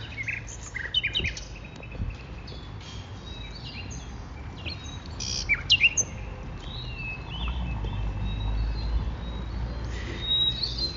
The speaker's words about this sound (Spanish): Ahora, en contraste, estamos escuchando una compilación de pájaros nocturnos.